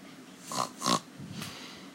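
A pig grunts in a few short nasal snorts, two close together and a weaker one after, faint against a quiet hiss.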